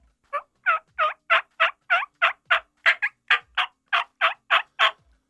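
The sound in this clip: Turkey gobble blown on a small mouth call held behind the teeth. It makes a rapid, even series of many sharp, raspy notes, clearly spaced and loud, with no talking.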